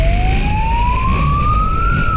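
A police siren wails in one long, loud tone that climbs steadily in pitch across two seconds, with a low traffic rumble underneath, during a chase through city traffic.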